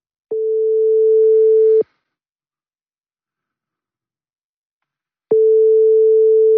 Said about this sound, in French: Allez, c'est parti, on se connecte avec WhatsApp.